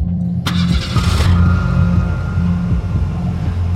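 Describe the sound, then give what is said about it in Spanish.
A car engine starts: a short, loud burst of cranking and catching, then a steady low idle that hums on evenly to the end. “Arrancas el coche”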